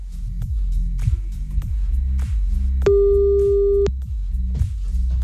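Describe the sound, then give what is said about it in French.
Ringback tone of an outgoing telephone call: a single steady tone, about a second long, sounds once over pulsing background music. “Bon, allez, c'est parti, on y va, on appelle.”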